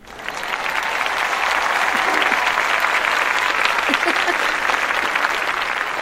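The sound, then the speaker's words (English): A full studio audience on three tiers of seating applauds to welcome an author as guest, the dense, continuous clapping swelling quickly at the start and then holding loud and steady for several seconds. “Well, this sounds like the studio audience is just pretty full there. It is. It is. It's like we have three tiers of seating here, and all three of them are filled.”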